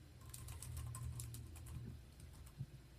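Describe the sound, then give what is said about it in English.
Keyboard typing, a quick run of light, clicking keystrokes at a faint level, ending with one slightly firmer tap. “I gotta do some research here. Was it 2010? I'm trying to type here.”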